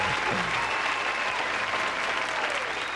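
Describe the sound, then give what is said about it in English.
Steady applause from a small group fills the whole stretch, a dense, even patter of hand claps with a few faint voices mixed in underneath. “let me give y'all a round of applause, man”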